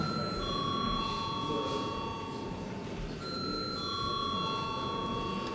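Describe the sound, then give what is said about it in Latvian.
An electric bell rings without a break to call members of parliament to a vote. Its steady, high, overtone-rich tone shifts slightly partway through, over a constant broad background noise. “Lūdzu zvanu.”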